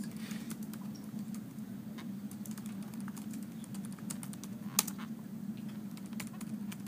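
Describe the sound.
Computer keyboard typing: many light, irregular key clicks, faint over a steady low hum, with no talking.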